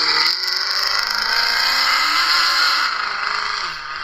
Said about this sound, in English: But we have a black Dodge Charger. Mm-hmm. Here he is.